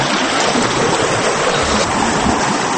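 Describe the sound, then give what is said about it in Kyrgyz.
Rushing canal water drives a large, continuously turning water wheel with many scoops on the Kyzyl-Kiya canal in Kara-Kyshtak. It makes a loud, steady, dense roar of flowing water with no pauses and no voices. “жерде Мирланбек акенин чарк-палеги тынбай дөңгөлөнө айланып жатты.”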